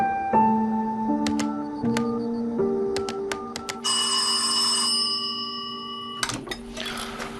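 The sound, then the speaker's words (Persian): A telephone rings with an incoming call late at night: a string of bright electronic tones and beeps with a few clicks, ending in a short noisy burst. “گروهبان؟ چرا یه گروهبان باید به من این وقت شب زنگ بزنه؟”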